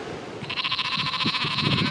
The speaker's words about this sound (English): There are more sheep than people here.